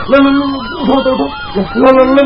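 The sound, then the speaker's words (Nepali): An ambulance siren wails at a road accident scene on a street. Its tone swoops up and down repeatedly and stays fairly loud throughout. “Ambulance आयो, ambulance”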